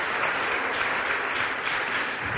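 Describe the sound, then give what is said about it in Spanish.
An audience in Valderrobres, Spain, applauds a guest: loud, dense clapping from many hands forms a continuous, even roar without voices that holds steady throughout. “Podéis aplaudir a Isaías también”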